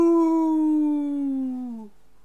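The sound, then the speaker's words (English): A human voice imitates a wolf howl: one long, sustained, tonal note held for about two seconds, sliding gently downward in pitch before it stops, with nothing else heard. “you'll hear that wolf howl, and then, like, the wolf howl will stop in the original full wolf howl. It goes like arr,”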